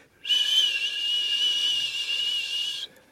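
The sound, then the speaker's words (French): A shrill whistling sound, likened to a Fourth of July rocket, in a radio drama about an alien landing. The steady, high whistle carries some hiss, starts and stops abruptly, and lasts about two and a half seconds alone. “J'ai entendu quelque chose. Et qu'avez-vous entendu? Un sifflement, comme ça.”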